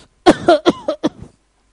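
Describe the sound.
Coughing comes from someone in an audience: a rapid series of five harsh, throaty coughs, fairly loud and close together, then quiet.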